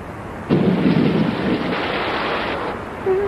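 Thunder with rain in a Kurdish cartoon: a sudden loud rumbling crash breaks out over rain hiss, holds for about two seconds, then cuts off.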